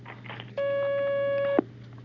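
A single steady electronic telephone line tone as a phone-in call is taken. It holds for about a second and ends in a sharp click, over a low constant hum.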